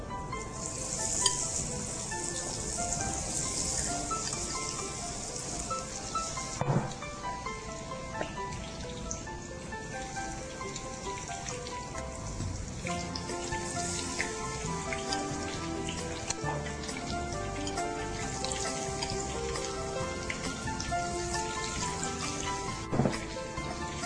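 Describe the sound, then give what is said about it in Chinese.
Food deep frying in hot oil produces a dense, continuous sizzle and crackle with scattered sharper pops, holding steady throughout with no talking. “好，我们把它分成两锅来炸哈，不要一次炸。”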